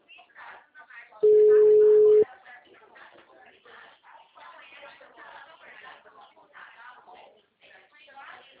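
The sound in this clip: Telephone busy tone after a call drops: one steady, mid-pitched tone lasting about a second, with talk before and after it.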